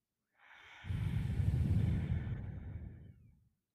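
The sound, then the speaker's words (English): A deep breath drawn in through the nose and mouth: one long, airy inhale of about three seconds that swells quickly, holds, then tapers off, with nothing else heard. “take in a deep breath with us”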